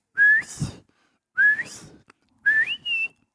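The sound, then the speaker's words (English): A person whistles an imitation of a bobwhite quail call, mixed in with turkey calling: three clear whistled phrases, each sweeping sharply upward in pitch, separated by short pauses. “Quill are trying to get back together, or throw a Bob White at it, you know, the Bob White whistle.”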